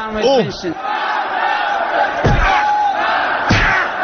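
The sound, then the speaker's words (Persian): A crowd of voices in a parliament chamber chanting a political slogan against a 'seditionist', loud and rough, with a few sharp thuds cutting through the continuous shouting. “بعد اینا شعار مرگ بر فتنه‌گر.”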